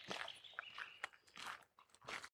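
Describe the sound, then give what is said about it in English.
Footsteps crunch on gravel during a walk, a few faint, gritty bursts of crushed stones spaced irregularly underfoot. “We are going for a walk, so you're going to hear the gravel beneath our feet.”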